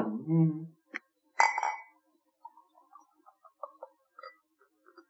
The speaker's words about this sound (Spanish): Ahí tenemos la Red Stripe y vamos a probarla, si os parece. Como esto es de botella, ya está.